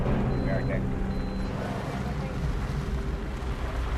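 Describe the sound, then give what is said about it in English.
A police car drives up, its engine a steady, continuous low rumble with a whooshing, wind-like wash throughout the short stretch. “The officer drives up to them.”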